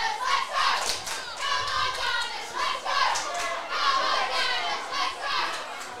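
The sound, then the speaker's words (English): Arsenal supporters fill the stadium with noise, a sustained mass of chanting and singing voices that swells and dips in a steady rhythm throughout. “The Gunners fans making some noise. Been plenty of noise from the supporters today.”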